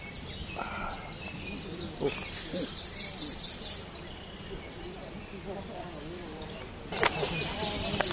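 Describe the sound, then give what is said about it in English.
A prothonotary warbler sings in bright, high repeated notes: a quick run of about eight similar chirps, a pause, then a second burst of the same notes near the end. “that sound you're hearing right now is a Prothonotary warbler”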